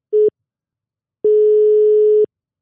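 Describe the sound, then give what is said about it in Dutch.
Ringback tone of an outgoing telephone call: a brief tail of one tone, a pause, then a single steady tone lasting about a second. The pitch stays level throughout, with silence between the tones and no voices. “We gaan hem eens bellen.”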